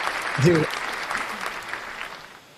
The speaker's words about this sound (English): since he did the clapping for himself.